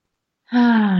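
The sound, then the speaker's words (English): A big, deep breath begins after a moment of silence and swells into a steady, voiced sigh-like exhale with a low hum in it, held evenly to the end. “So taking a big, deep breath.”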